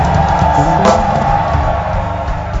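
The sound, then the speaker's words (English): A church audience cheers and shouts praise to the Lord, a loud, dense wall of crowd voices and whoops that holds steady throughout without a break. “Put your hands together for the Lord, and you can add a shout of praise.”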